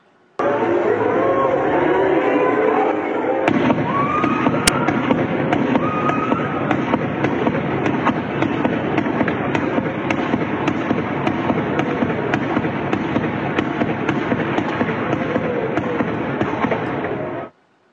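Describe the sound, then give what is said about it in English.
Rapid gunfire from a rooftop shooter firing on a parade, with many sharp cracks in dense, unbroken bursts that continue loudly for nearly the whole clip. “He scaled a fire escape ladder to the roof of a local business, and then he opened fire on a parade. Here's what it looked like.”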